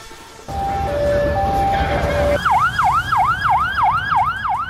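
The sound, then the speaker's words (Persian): An ambulance siren sounds at a gathering after the killing of a Hamas leader, first as held steady tones, then as a loud, fast, repeating rising-and-falling wail over a low rumbling background. “این صدای امبولانس و تجمع مردم به خاطر کشته شدن یکی از رهبران حماس بود.”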